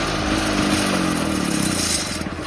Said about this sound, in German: der Trabi war das